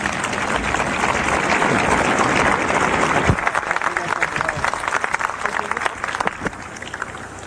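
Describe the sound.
Audience applause welcoming a speaker at a talk on deep underground military bases: dense, loud clapping from a crowd that holds steady for several seconds, then turns slightly more uneven and scattered toward the end.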